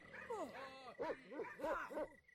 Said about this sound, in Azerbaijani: Kim orada? Bax, bu köpəklər quduzdular, ha?